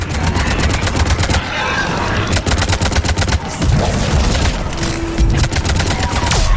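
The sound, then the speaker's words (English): Rapid gunfire crackles throughout a video game firefight between a Reaper Dragon and a Mako. Dense bursts of sharp shots follow one another, loud and continuous, with a few brief gaps between volleys. “We got a Reaper Dragon. And it shoots the Mako. And the Mako shoots back.”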